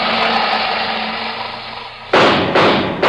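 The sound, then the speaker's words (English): Revolver gunshots as a radio drama sound effect: a sustained noisy roar gives way to two sharp, loud shots in quick succession. “That's 2 shots. He's got a revolver that holds 6. 4 to go.”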